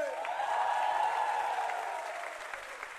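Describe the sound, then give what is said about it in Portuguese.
Audience applause rolls on as a broad, steady wash of many hands clapping, loud at first and easing slightly toward the end. “palmas pra vocês”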